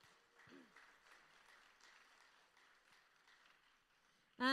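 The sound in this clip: A church audience applauds its volunteers with soft, diffuse clapping that holds steady and fairly faint throughout. A voice cuts in abruptly at the very end.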